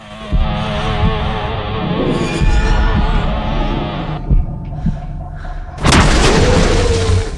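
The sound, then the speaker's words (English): Gunshots blast the plaster heads off a line of jockey figures on a sun deck, a few heavy booming shots spaced out over a low, throbbing drone. “He shoots off a figure's plaster head.”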